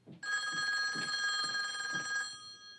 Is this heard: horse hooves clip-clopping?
no